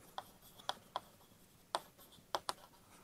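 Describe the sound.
Faint writing on a board during a physics lecture: several short, scratchy strokes and taps spaced unevenly over a quiet background, with no talk.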